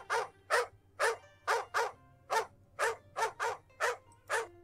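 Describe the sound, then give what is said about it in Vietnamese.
A dog barks loudly in a garden, a rapid series of about eleven sharp, harsh barks in a fairly even rhythm, each one short and bright, with no voices. “Đột nhiên cũng không biết là trong vườn nhà ai truyền đến tiếng chó sủa đinh tai.”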